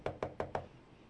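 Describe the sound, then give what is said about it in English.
Four evenly spaced knocks on the door of a cozy cottage, each a short, soft wooden rap, followed by quiet. “Goldie walked to the door and knocked.”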